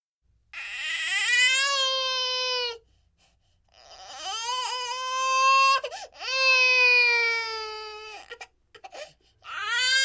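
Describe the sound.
A fussy baby cries in a string of high, drawn-out wails broken by short gaps, ending in a few choppy, hiccuping sobs.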